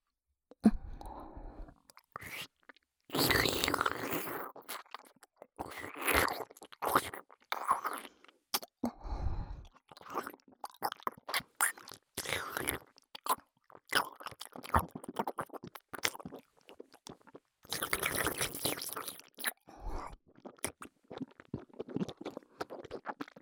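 Close-up eating and chewing of food, with many irregular crunching and squelching bursts broken by short quiet gaps and no talk.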